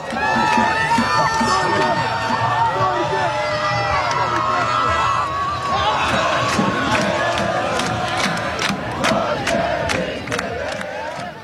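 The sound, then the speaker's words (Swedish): Around 100,000 people celebrate in the streets of Oslo, a dense, loud roar of cheering and shouting voices that holds steady throughout, with sharp pops and cracks bursting out in the latter half. “de är på plats i Oslo och rapporterar att runt 100 000 människor har tagit sig ut på gatorna. Och de har en livesändning på gång där, och vi kan höra lite hur det lät för en liten stund sedan.”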